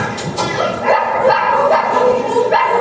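A dog barks several times in sharp, quick yips and short bursts over a busy, steady background.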